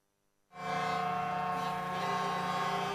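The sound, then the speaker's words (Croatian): Trucks in a protest drive by hauliers in Banja Luka sound their sirens together: a loud, steady, many-toned blast starts abruptly after half a second of quiet and holds without a break. “Uz zvuk sirena više od 300 prevoznika krenulo je u mirnu protestnu vožnju od Predorske petlje u Banja Luci do Klašnica u Laktašima”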